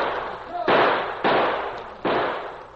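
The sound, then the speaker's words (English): Gunshots in a radio drama shootout among boulders: three sharp, loud reports at uneven intervals, each trailing off in a long, decaying roar. “As the shots from behind the boulders came less and less frequently, and finally ceased altogether, Tully's men prepared to close in for the kill.”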